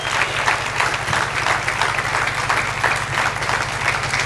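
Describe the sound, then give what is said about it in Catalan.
Warm applause for an organizing team, a dense, steady crackle of many hands clapping that holds at an even, loud level throughout, with a low hum underneath. “Un fort aplaudiment per aquest equipasso, perquè un president sense un grupasso com he tingut jo no és res. Més fort, més fort.”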